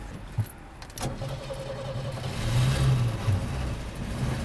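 An early vintage 404 car engine runs with a low, rough rumble that swells as it revs midway and then holds steady and fairly quiet.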